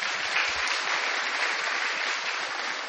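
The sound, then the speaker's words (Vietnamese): Audience applause in a hall during a ceremony where congratulatory flower baskets are presented, a dense, even wash of many hands clapping that holds steady throughout without voices. “Xin hội trường một tràng pháo tay.”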